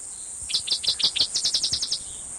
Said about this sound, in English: Different song, cicadas in the background.